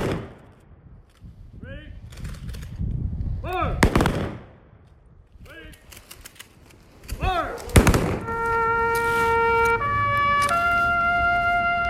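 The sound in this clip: A rifle volley fired on command at a memorial service: a few sharp, loud cracks ring out between shouted commands, followed by sustained steady tones.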